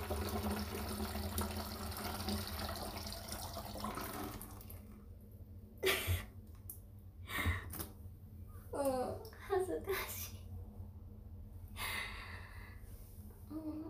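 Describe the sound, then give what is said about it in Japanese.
Urine streams into a plastic PET bottle as a steady hissing, splashing rush for about four seconds, then stops, followed by a few scattered short knocks and faint breathy vocal sounds. “聞こえましたか？ちょっと初めてだったので、ペットボトルに出すのは、最初うまく入んなかったんですけど、”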